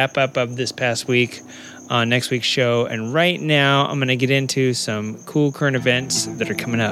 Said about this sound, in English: Listen, right now I just want to kill this cricket. There's a cricket in here.